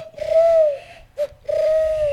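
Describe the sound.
A human voice imitates a pigeon cooing with two long, steady, fairly loud coos and a short blip between them. No other talk is heard.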